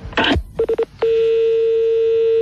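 A telephone number is dialed on a touch-tone phone as a quick run of short, even-pitched beeps, followed by a long steady tone that holds loudly to the end.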